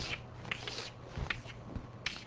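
Chalk or marker drawing on a board during a lecture makes faint, dry scratching and rubbing, with a few short strokes standing out from a continuous soft scrape.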